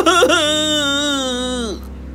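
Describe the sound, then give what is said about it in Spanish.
A child cries in one drawn-out, loud wail with a rich tone. It wavers at first, then holds steady and sinks slightly in pitch before breaking off, leaving faint background sound. “Tras llorar varios minutos”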